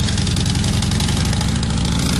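Motorcycle engines running among a group of 18 riders approaching New Orleans. They make a steady, loud, low rumble with continuous vibration and no pauses.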